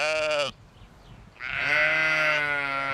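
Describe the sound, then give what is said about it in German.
Sheep bleat from a flock of about forty ewes and their lambs at feeding time: one loud, wavering bleat breaks off, then after a short pause another long, harmonic-rich bleat follows. “Die Herde besteht aus 40 Mutterschafen und ihren Lämmern.”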